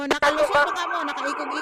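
A fire truck siren stuck in heavy bumper-to-bumper traffic sounds as a loud, sustained, slightly wavering tone with bright harmonics, with a couple of sharp brief bursts near the start.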